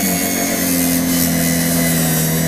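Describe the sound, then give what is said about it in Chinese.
A grinding wheel sands a papier-mâché form for a gilded horse toy. It makes a loud, continuous abrasive whir with a steady low hum underneath and holds throughout without pauses or voices. “刚才拿那个砂轮打是大面积的，然后一些就像犄角旮旯细部就要拿砂纸再打一打”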